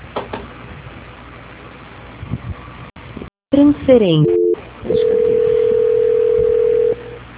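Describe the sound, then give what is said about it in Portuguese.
Telephone line tones play during a call transfer. Line noise drops out briefly, a quick run of falling tones follows, and then a loud steady tone holds for about two seconds before cutting off over a faint hiss. “Só um minuto, por favor, que eu vou transferir a sua ligação.”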